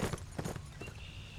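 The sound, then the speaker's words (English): Faint clip-clop of a horse's hooves as a rider sets off on horseback, a few soft thuds spaced out over a low, steady background. “Slapping his legs against the side of his horse, he rode on toward Kansas City.”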